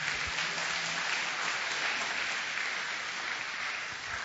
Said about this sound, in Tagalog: Palakpakan natin ng Panginoon.